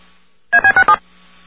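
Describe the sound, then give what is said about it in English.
Four DTMF touch-tones play in quick succession on a payphone call. They are short, loud, evenly spaced beeps of nearly equal length, alone on a faint line hiss. “You hear the synthesized voice say thank you, then you hear four DTMF tones. And I'm told that at least a couple of those tones are from the hidden fourth row of the touch-tone”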